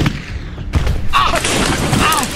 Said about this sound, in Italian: D'accordo, ora gli sparo, prendo la mira. Al mio tre, uno, due, tre.